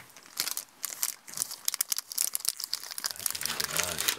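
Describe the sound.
A chocolate wrapper crinkles and rustles as it is unwrapped during a long hike. Rapid crackles come in many uneven bursts, with voices talking over them.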